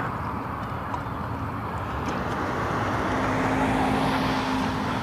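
A car coming along a road, its low engine rumble and tyre noise growing gradually louder over a broad, steady roar, with a faint hum emerging toward the end.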